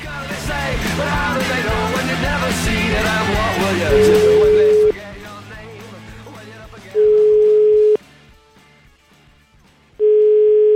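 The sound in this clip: A telephone call is placed and the ringing tone sounds: three steady, even tone pulses, each about a second long with gaps between them. Talk fills the opening before the tones start.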